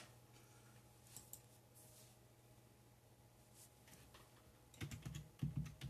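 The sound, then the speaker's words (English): Faint clicking of typing on a computer keyboard. A couple of isolated keystrokes come first, followed by a quicker flurry of taps near the end over a low, steady hum. “I'm going to type up William Cooper mass shootings.”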